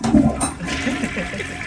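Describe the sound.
Toilet flushing: a loud gush of rushing, gurgling water that swells at the start and then continues as a steady churning wash to the end.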